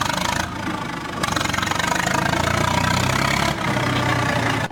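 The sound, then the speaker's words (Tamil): A JCB backhoe loader engine idles with a steady, rough, low rumble and a fast rhythmic knock throughout, interrupted by a couple of brief dips in level. “அந்த ஜேசிபிய start பண்ண சொல்லு.”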